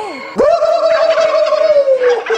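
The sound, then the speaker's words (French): A human voice imitates a turkey's gobble: a quick rising yelp, then one loud, sustained, gargling warble held at a steady pitch, heard alone. “Tu veux que je te fasse le cri du dindon ?”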